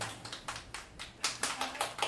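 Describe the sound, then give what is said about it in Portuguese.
A few audience members clap in a loose, steady rhythm, soft sparse hand claps spaced roughly a quarter second apart, faint and without a full crowd behind them. “Bom, pra quem não sabe, quatro pessoas bateram palmas.”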